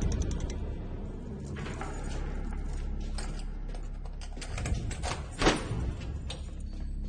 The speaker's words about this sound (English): The other man finishes unlocking the vault.